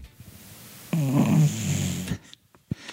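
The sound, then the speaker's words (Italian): A dog snores in one drawn-out, raspy, harmonic breath lasting about a second, followed by a few faint snuffles and clicks in an otherwise quiet clip. “abbiamo ospite il cane che russa.”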